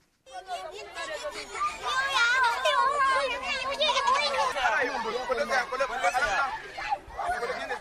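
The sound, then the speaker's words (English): Children at Dalori IDP camp in Maiduguri, Nigeria, welcome guests with many high young voices shouting and chattering over one another. The sound starts after a brief silence and stays loud and lively throughout. “This is the sound of children at Dalori IDP camp in Maiduguri welcoming guests to their home.”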